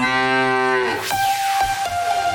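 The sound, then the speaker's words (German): A cow moo comes from a Müllermilch milk bottle in a radio contest advertisement: one long, low, harmonic moo that then gives way to a steady bright electronic tone. “Finde die letzte muhende Müllermilchflasche”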